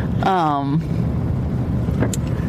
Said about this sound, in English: whoops, I'm driving and coming up to a stop sign.